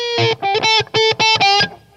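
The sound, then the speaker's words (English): Electric guitar played through a Line 6 unit set to a thin sound with dramatic repeat echo delay. A quick series of loud, bright, distorted notes repeats in a stuttering rhythm as the echoes trail off. “and we use some repeat echo, we've got a rather dramatic delay.”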